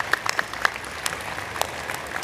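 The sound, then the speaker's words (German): An audience at a convention and fan fair applauds: many hands clap in a dense, steady patter, moderately faint, with a few sharper claps standing out over about two seconds. “Einmal Applaus für Mero”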